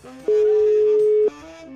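A telephone call being placed, heard as a single steady ring tone lasting about a second over a faint background sound.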